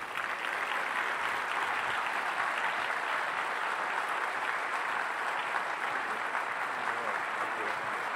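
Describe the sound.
Audience applause welcomes a speaker to the stage at an evening lecture, a steady, dense clapping that holds at an even loudness for about eight seconds without a break.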